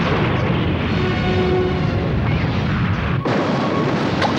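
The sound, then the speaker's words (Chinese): A space fleet's cannons fire in a sci-fi battle, making a dense, loud, continuous roaring barrage that rumbles steadily and briefly drops out near the end before resuming. “敌舰队进入射程之内。 好，射击。”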